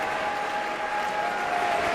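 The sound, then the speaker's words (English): A concert audience on its feet gives a standing ovation to a violin soloist, producing dense, steady applause with no breaks, a continuous wash of clapping. “The ovation continues as Hadalek turns to the orchestra and applauds them.”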